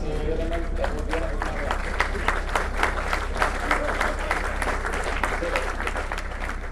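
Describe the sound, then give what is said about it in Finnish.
Applause in mission control after the ESA SMART-1 lunar probe crashed into the Moon: steady, dense clapping runs throughout, with voices faintly beneath it. “Ja millekö tässä sitten taputetaan? Tietystikin sille, että luotain syöksyi kuun pintaan ja tuhoutui.”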